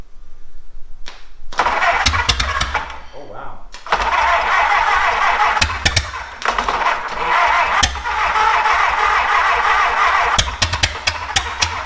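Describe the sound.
An engine running on top fuel nitromethane fires after a few sputtering attempts and catches into a loud, harsh roar, uneven and crackling, with sharp pops scattered through the run.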